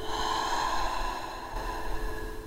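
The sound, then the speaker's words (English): Slow breathing, drawn in through the nose and let out through the mouth, a steady airy rush beneath a sustained tonal drone, with no talking. “and out through the mouth, in through the nose, and out through the mouth,”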